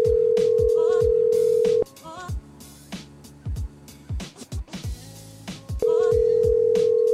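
A telephone call ringing while waiting for pickup: a steady ringback tone sounds for about two seconds, breaks off into a quieter, uneven stretch, then returns near the end.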